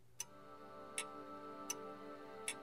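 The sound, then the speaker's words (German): Ticking of a large bronze pendulum clock as the pendulum swings: four evenly spaced, faint metallic ticks with short ringing tails over a quiet, steady background tone. “dieser große, bronzefarbene Pendel, der da hin und her schwingt. Und die macht eben so ein Geräusch. So ein bisschen so ein halliges, metallisches Geräusch.”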